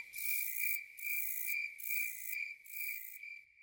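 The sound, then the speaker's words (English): Tropical forest insects at night, cricket-like, make a steady high-pitched trill that swells and fades in regular pulsing bursts, faint and alone. “the forest at night is full of sounds, not so much sights. And given that we are in the tropics, this is a huge diversity of sound that you are going to be subjected to.”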